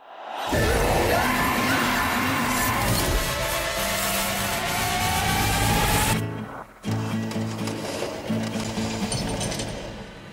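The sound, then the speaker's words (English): Trailer audio for the horror film Jigsaw: a loud, dense wall of grinding, whirring mechanical noise and rising tones, which cuts out abruptly near six seconds before pulsing, repeated stabs resume. “All right, that was the trailer for Jigsaw, our second new release review of the week.”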